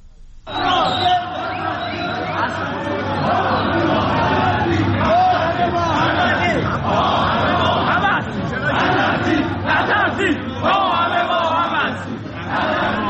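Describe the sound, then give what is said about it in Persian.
Protest crowd chanting at Tehran's Grand Bazaar: a dense mass of loud voices fills the whole clip, sustained and rhythmic with no break. “بنابراین ویدیوهایی که منتشر شده و صداهایی که میشنوین همونطوری که شنیده میشه زیاد حال و هوای اقتصادی نداره و به هر حال نشون داده میشه که اعتراض‌ها در بازار بزرگ تهران ادامه داره.”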